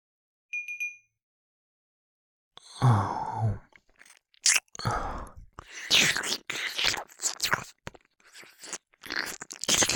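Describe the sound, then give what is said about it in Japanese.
Wet ASMR ear-licking and slurping sounds, with smacking, sucking mouth noises close to the microphone, come after a brief, clear chime-like tone. The licking arrives in irregular bursts with short quiet gaps between them. “レロレロ、チュパチュパ、ジュルジュル、グチグチ。耳を舐める音と僕の声が”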